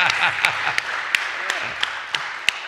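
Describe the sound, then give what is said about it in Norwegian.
An audience applauds at a seminar in Oslo with steady, dense clapping at moderate volume. A few sharper individual claps stand out above the wash, and voices sit faintly beneath. “Let's give Andrew Tucker a big applause.”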